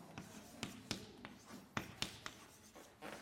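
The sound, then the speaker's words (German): Chalk or marker writing on a board during a university maths lecture, a faint series of irregular taps and short scratches as the strokes land, with quiet pauses in between. “Das ist eine mathematische Zwangshandlung, das dazu zu schreiben.”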